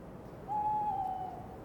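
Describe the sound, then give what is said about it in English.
A single owl hoot, one steady mid-pitched tone held for under a second, faint over a low background hiss. “Hello, my little owl. I hope your morning flight was enjoyable.”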